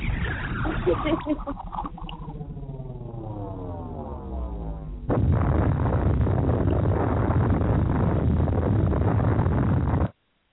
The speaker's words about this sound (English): just in case, I have to drop a bomb on them like this.